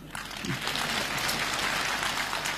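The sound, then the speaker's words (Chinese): Audience clapping at a comedy stage show, a continuous, fairly quiet rattle of many hands that stays even throughout the short stretch. “用那个最不热烈的掌声给他一个。”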